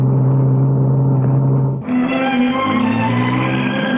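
A car engine drones loudly as it is driven, then dips briefly midway before settling into a higher-pitched, steady hum, like a gear change.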